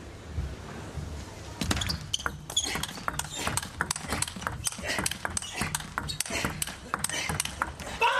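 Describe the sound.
A table tennis rally between Harimoto and Yang Jingkun: many sharp ball clicks fire off in a fast, regular back-and-forth rhythm after a quiet start. A commentator's voice and crowd murmur sit underneath.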